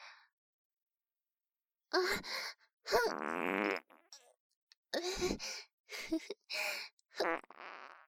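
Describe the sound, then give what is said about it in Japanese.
Small farts come out one after another, deliberately let out little by little rather than all at once. Several short, breathy bursts sound in a halting sequence, separated by brief silences. “出てる、出てる、おなら出ちゃってます。ちっちゃいのが。少しずつ”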